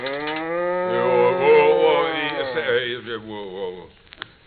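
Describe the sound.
A cow moos in a barn before morning milking: one long, drawn-out low moo held for about three seconds, then trailing off.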